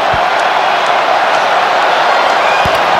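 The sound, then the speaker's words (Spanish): Stadium crowd noise as football fans cheer before Colombia's free kick against Switzerland: a dense, steady roar of many voices that holds level throughout, with no sharp peaks. “El público alienta.”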